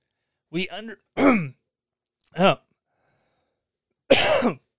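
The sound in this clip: A person clearing the throat and coughing, as if something is stuck there, in four short, harsh bursts spread out with pauses; the first burst is doubled and the last is the longest.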